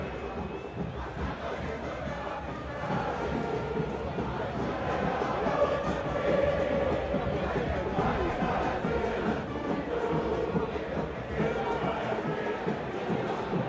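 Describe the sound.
Stadium crowd noise fills Tomás Ducó, Huracán's ground, as fans await Boca and Vélez: a steady, dense roar of many voices that holds throughout with slight swells, no single chant standing out.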